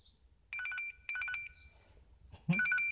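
An electronic telephone ringtone plays three short bursts of rapid, warbling high tones separated by pauses. The rings are faint and stand alone with no voices.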